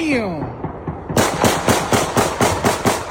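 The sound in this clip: Gunshots fired into the air crack out in a rapid, fairly regular series of loud, sharp bursts, following a brief quieter opening.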